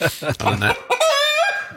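A hen clucks loudly, a few short choppy clucks followed by a drawn-out squawking cackle.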